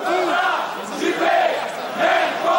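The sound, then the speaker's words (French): A crowd of protesters chants a slogan against Nicole Notat and Juppé, loud massed voices in a steady rhythmic cadence that rises and falls together. “Vous avez entendu le slogan ? Notat, Juppé, même combat.”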